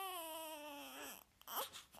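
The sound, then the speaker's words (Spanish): A small orc baby crying in a tense fantasy scene: a sustained wailing cry with a rich, buzzy tone that sags slightly in pitch, then breaks into short, choppy sobs and whimpers. “el llanto de este pequeño orco que nos acompaña”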